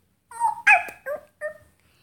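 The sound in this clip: A little puppy whimpers in four short, high-pitched, whining cries with brief gaps between them, fairly loud and alone with no voices.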